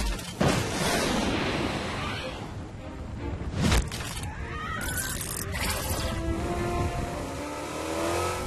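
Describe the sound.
A raptor barrier skill fires in a video game with a few loud, sharp blasts over a continuous roaring, revving rumble that stays strong throughout.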